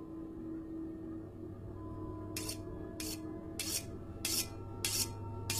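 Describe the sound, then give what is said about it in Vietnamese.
Faint rasping of a knife being sharpened. A quiet stretch of low hum gives way to a steady run of short, bright scraping strokes. “Tiếng động ban đầu còn nhỏ, loáng thoáng nó na ná như là tiếng người ta mài dao.”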